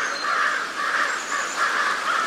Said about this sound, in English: when a mobbing flock of crows teams up on an eagle, they're not only drawing attention and chasing off a potential danger